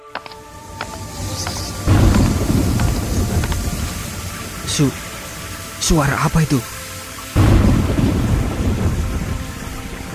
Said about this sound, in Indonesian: Badainya benar-benar dahsyat.